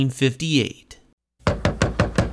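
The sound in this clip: Knocking on a door in a 1958 novelty song, heard after a brief sung vocal and a pause: about five sharp knocks in a steady, even rhythm.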